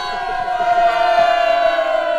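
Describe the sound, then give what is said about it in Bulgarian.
A crowd of voices shouts a loud, sustained hurrah in unison for the brave tailor, the cheer held as one long continuous cry. “За храбрия шивач да викнеме ура! Ура!”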